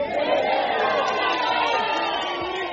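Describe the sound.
A crowd cheers and calls out in welcome for a visiting guest from Zimbabwe arriving in Botswana. Many voices merge into a dense, continuous roar that holds at a steady loudness throughout.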